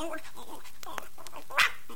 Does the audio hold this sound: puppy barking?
yes